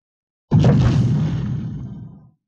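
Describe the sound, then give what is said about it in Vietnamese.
A massive explosion as a mountain collapses: a sudden, loud, deep boom with broad rumbling noise that slowly fades over about two seconds, heard alone. “Tiếng nổ kinh thiên động địa, chớp mắt có ngọn núi sụp đổ, bụi đất bay đầy.”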